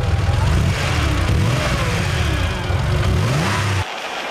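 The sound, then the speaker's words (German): A car engine revs hard as the handbrake is released and the driver accelerates on sandy ground. The loud, continuous mid-pitched roar climbs in rising sweeps, then drops to a lower, steadier drone near the end. “Dann werde ich die Handbremse lösen und Gas geben.”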